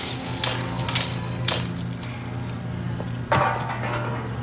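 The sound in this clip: A sugar glass prop breaks with brittle crunching and light tinkling, scattered clinks of fragments following, then a fresh sharper crack and rattle near the end.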